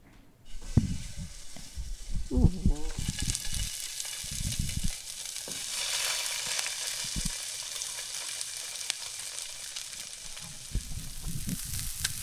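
Burgers sizzle in a hot pan on the stove with a loud, steady crackling hiss. A few knocks and stirring sounds break in early on.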